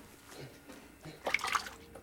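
Water splashes and drips as a razor is rinsed during shaving. It is quiet throughout, with one brief, slightly louder burst of sloshing near the end.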